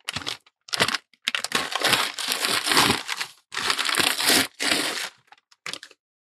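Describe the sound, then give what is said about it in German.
Crinkling and crumpling of wrapping paper as a present is wrapped, in many irregular bursts, some short and some long, loud and without any talk. “Aber ich kann voll gut einpacken, oder? Ist voll hübsch.”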